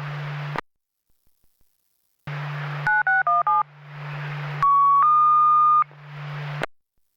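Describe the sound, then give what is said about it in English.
Electronic alert tones for a structure fire dispatch: bursts of radio static, then a quick run of four stepped beeps, a hiss, and a sustained two-part tone before the static returns and cuts off. “Ring the alarm.”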